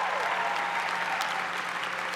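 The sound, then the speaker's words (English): Applause for a class committee during a speech at a senior-class event, continuous dense clapping from a crowd at an even, fairly strong level throughout. “Class committee here, round of applause for class committee, you all.”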